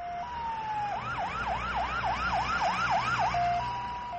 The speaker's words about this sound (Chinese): 救护车!